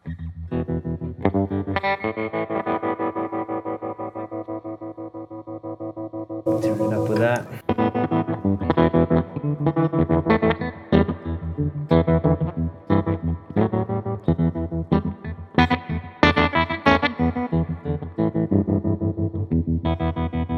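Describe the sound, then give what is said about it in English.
Electric guitar runs through an effects pedal whose internal trim pot is turned for a glitchy, broken-amp distortion, giving choppy, buzzing notes with a harsh noisy burst partway through; a brief spoken phrase comes in. “when you turn this little wave thing, it's like this little internal trim pot. It gives you this great broken amp sound, which I like.”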